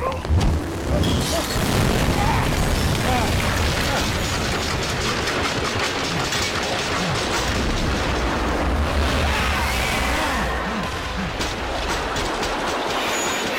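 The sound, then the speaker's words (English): Skyhook weapon from the video game Bioshock Infinite: a loud, continuous rushing and grinding roar like metal wheels on a rail, with booming hits, sustained for about thirteen seconds. “It's Bioshock, the Skyhook. Okay. It's like your main weapon in the game.”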